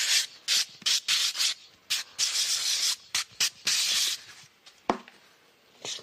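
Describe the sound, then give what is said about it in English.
Sandpaper rubbing in many quick, rhythmic back-and-forth strokes, each a bright, raspy hiss, with short gaps between them and a brief knock near the end. “Sandpaper.”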